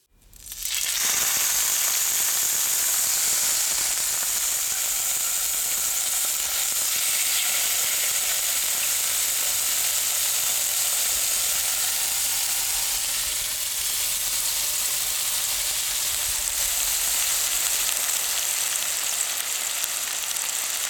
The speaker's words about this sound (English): It was, of course, a piece of meat in a fry pan, sizzling in reaction to the heat underneath and forming an oh-so-lovely crust